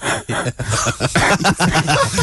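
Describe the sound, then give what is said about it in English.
Coughing from a cold: a run of harsh, raspy coughs and throaty hacks, loud and rough, with short gaps between bursts and no talk. “Because as I cough, when I get a cold, I sound like this.”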